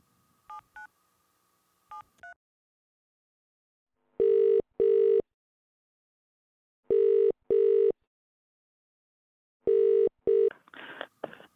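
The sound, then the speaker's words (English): A telephone call is dialed and rings. A few short keypad tones come first, then three double-pulse ringing tones at a steady pace, with a brief burst of noise at the end. “Should we just try and give him a call? Let's do it. Okay, give me one moment. I'm going to dial him in here.”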